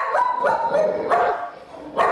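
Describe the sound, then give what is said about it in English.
Two dogs, a pit bull and a Sheltie, bark in a loud, rapid string of repeated barks with hardly any gap between them, and a few sharper yips stand out near the start and the end. “That's Apollo and Tucker, my two dogs. Apollo's a pit bull and Tucker's a Shelton.”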